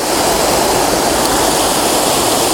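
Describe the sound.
Waterfall rushing steadily, a loud dense roar of falling water that holds an even, unbroken hiss throughout with no voices.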